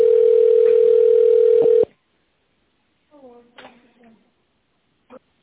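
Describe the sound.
A telephone call-connecting tone: one loud, steady mid-pitched beep that cuts off after about two seconds. A pause of silence follows, then a brief stretch of speech and a faint click.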